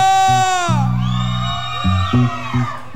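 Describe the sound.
A group of people shouting a rallying cry together, loud whooping and yelling voices that rise and fall in bursts, with sustained tonal sounds layered underneath.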